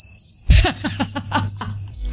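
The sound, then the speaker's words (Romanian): A crickets-chirping sound effect triggered from a button: a steady high-pitched insect trill runs throughout, with a quick series of chirping pulses laid over it and no voices. “Ai efectul ăla butonul cu greieri? Am, da, fii atent.”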